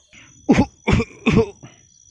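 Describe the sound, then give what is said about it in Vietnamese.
A harsh, dry coughing fit from a man with a painful chest: three strong, rasping coughs in a quick rhythm, framed by a fainter cough before and after, with no talk. “Có điều hắn khó trách khỏi kịch liệt ho khan một tràng thì mới giảm bớt được cảm giác đau nhức nơi lồng ngực.”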